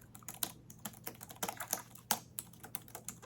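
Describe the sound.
Typing on a computer keyboard, with many quick, crisp key clicks tapped in an uneven rhythm. The clicks are quiet and close, some landing harder than others, and no voices can be heard.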